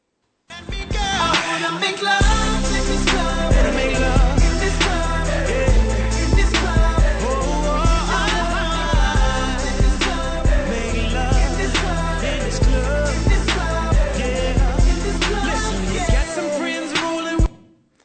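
A pop song plays from a recording, with sung vocals over a steady beat and heavy bass, running loud and unbroken before cutting off at the end.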